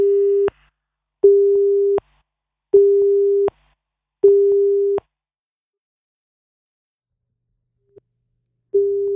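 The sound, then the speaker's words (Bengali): Telephone busy tone after a caller's call to a radio phone line dropped: four steady, evenly spaced mid-pitched beeps, then a pause, a faint click and a fifth beep. “আমাদের সঙ্গে কোনো শ্রোতা বন্ধু যোগাযোগের চেষ্টা করছিলেন, যোগাযোগ বিচ্ছিন্ন হয়ে গেছেন।”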